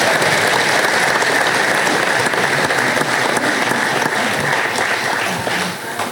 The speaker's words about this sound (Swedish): Och vi tackar dem med en applåd igen.